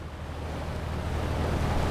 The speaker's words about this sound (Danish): Vi er på vej helt ind i bunden af Nuukfjorden, og skibet skyder 6 knop.